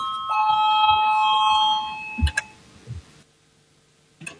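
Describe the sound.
A parliament's electric voting bell rings before a vote: one steady, sustained ring of about two seconds, followed by a few dull knocks and thumps.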